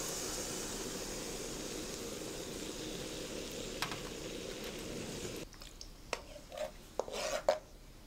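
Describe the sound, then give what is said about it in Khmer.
Hot coconut milk poured and stirred in a pot: a steady, faint, rushing hiss for several seconds, then a few soft scraping stir strokes. “នៅពេលនេះខ្ទិះក្ដៅគឺខ្ញុំចាប់ផ្ដើមចាក់ខ្ទិះចូលកូរតែម្ដង”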